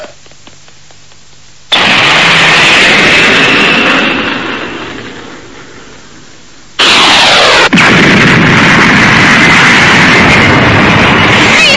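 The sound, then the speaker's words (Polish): A spaceship landing in a garden bursts in after a quiet start as a loud, rushing roar. It fades over a few seconds, then a second loud, sustained roaring blast cuts in and holds to the end. “Patrzcie, w ogrodzie wylądował statek kosmiczny.”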